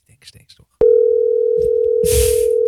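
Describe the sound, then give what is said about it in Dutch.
A steady, continuous dial tone sounds on a telephone call to a hotel. It starts abruptly after a few moments of low murmuring and holds at one pitch to the end, with a short burst of rustling noise under it near the close. “Ja, we gaan gewoon bellen.”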